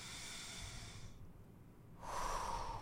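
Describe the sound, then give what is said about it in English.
A deep breath during a guided breathing exercise: a soft, airy rush of breath, a short quiet pause, then a second, slightly louder breath that carries a faint whistling tone. “One more inhale.”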